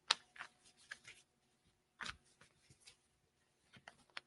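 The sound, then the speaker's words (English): A card is drawn from a deck for a reading, with soft papery slides, flicks and brushes of cards in a few quiet bursts separated by near silence. “Okay, so I was going to draw a card for the new moon and for Mercury direct. Let's do that really quickly.”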